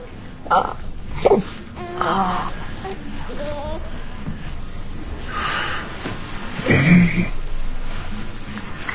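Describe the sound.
Fussy whimpering and wailing from a baby boy, a few short strained cries separated by breathy snorts and gasps.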